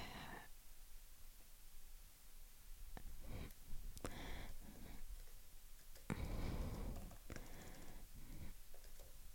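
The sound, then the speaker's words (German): Typing on a computer keyboard, heard as irregular bursts of clicking keystrokes separated by short pauses, with no talk over it. “ich muss kurz was schreiben.”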